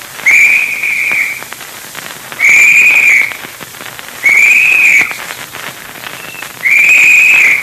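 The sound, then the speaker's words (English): Boys searching in the dark blow a whistle signal: four long, shrill blasts at a steady high pitch, spaced a second or more apart over a constant hiss. “That's the boys signaling. All right, Dick. Keep moving ahead. How we know if anybody finds something? Well, he'll blow the usual signal. 3 short, quick blasts on the whistle.”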